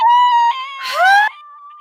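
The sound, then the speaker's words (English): A voice imitates a woman's scream: a loud, sustained, high-pitched cry that sweeps upward in pitch midway through, then settles into a held tone, all within under two seconds. “it was very much like that. It was such a scream.”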